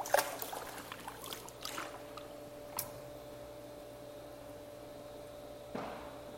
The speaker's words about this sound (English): so you might hear the odd bang, kaboom, and some cheering. but splashing, because, you know, I'm in the pool.